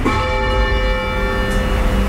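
Church bell rung from the ringing floor as a down bell that has not been raised. The ring is loud and sustained, with many steady overtones humming through the whole stretch and no separate strikes.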